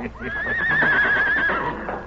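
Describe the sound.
A horse neighs in one long, loud whinny that rises at the start, holds a shaky, wavering pitch, then falls away as it fades.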